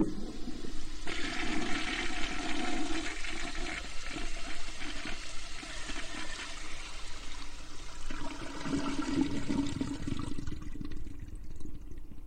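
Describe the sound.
A toilet flushing: a steady, rushing surge of water with gurgling and trickling that runs for about twelve seconds at an even level, with no talk.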